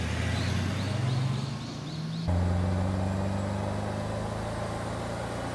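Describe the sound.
A car engine runs while someone drives, a low droning hum that climbs in pitch, shifts abruptly partway through, then settles into a steady, slightly rising drone. Faint repeated high chirps sound early on, and no one talks.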